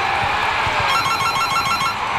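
Telephone ringing as a boss calls: a rapid, repeating electronic ring pattern lasting about a second, over a steady, loud background.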